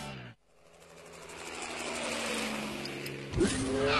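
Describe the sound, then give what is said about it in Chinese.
A sports car with an all-aluminium V8 petrol engine, all-wheel drive and a top speed over 300 km/h drones with a sustained engine note that builds steadily in loudness, then surges sharply louder near the end. “配备 V 八引擎，全时四驱系统，全铝汽油发动机，最高时速超过每小时300公里。”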